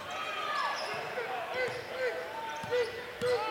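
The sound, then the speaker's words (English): A basketball is dribbled on a hardwood court during a game, a steady run of dull thumping bounces over continuous background noise. “Still with that dribble in front of us.”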